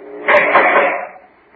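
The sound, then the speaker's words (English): A penitentiary cell door slides open in one rough, grating rush of noise that swells quickly, holds for under a second, then fades away. “Oh, guard, open the cell door.”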